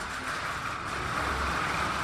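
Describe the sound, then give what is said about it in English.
Trucks and four-wheeled moving dollies work the loading dock behind CHS Field ballpark in St. Paul as the minor league team moves in. A steady, unbroken rumble of engine and rolling noise holds throughout. “That's what the loading dock behind CHS Field in St. Paul sounded like today as the St. Paul Minor League Baseball team moved into its new $63 million ballpark in the Lower Town neighborhood.”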